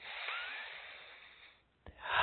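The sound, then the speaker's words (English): A slow, deep breath taken during a guided meditation with hands over the heart: a long airy rush of breath fades almost to silence, then a fresh intake of air swells at the end. “bring both of your hands up to your heart, one hand over the other. Take a nice deep breath.”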